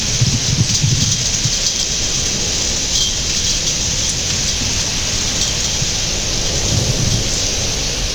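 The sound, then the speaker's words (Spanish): Steady rain falling, a loud, unbroken wash of hiss that holds an even level from start to end, with no voices. “Estoy trabajando ahora que empezó a llover”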